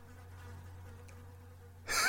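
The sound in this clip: A blowfly drones with a faint, steady, low buzz, then a sudden louder rush of noise cuts in at the end.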